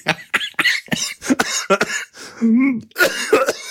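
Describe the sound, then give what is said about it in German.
Coughing after choking on something swallowed the wrong way: many sharp, rapid coughs in a ragged sequence, broken by a brief voiced strain, then a final cluster of harsh coughs. “Das habe ich verdient. Ich habe mich verschluckt.”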